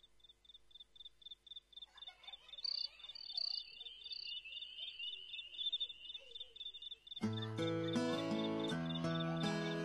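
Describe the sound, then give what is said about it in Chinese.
Crickets chirp in the intro of a song that blends hip-hop and folk: a steady, high pulsing trill runs alone for about seven seconds before loud music with full instrumentation suddenly comes in. “甚至在前奏当中加入了非常清新的让我们有一些夏日感觉的蟋蟀的声音，给人感觉非常特别。”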